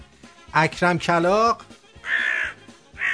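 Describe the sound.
A voice imitates a crow's caw, giving two harsh, nasal caws after a short stretch of talk.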